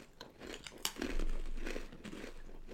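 Someone takes a snack and bites into it while tasting and comparing foods. There is crisp crinkling and crunching, with one sharp crack near the middle and then softer, rustling chewing noises.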